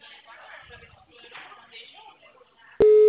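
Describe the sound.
Telephone ringing tone while placing a call: a single loud, steady electronic tone starts abruptly near the end, after a stretch of quiet, low conversational voices.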